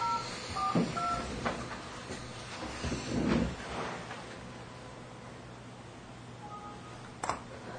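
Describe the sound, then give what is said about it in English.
Telephone keypad dialing tones: a few short dual-tone beeps in quick succession, then a pause and one more beep. Faint rustling and handling noise run underneath, with no talk. “The account code you have dialed is not valid.”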